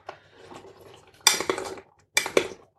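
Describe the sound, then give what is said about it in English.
Eggs being broken up and mixed in a bowl with the other quiche ingredients: a faint scrape and clatter of a utensil against the bowl, then two louder bursts of clinking and stirring. “And then break up your eggs and mix everything together.”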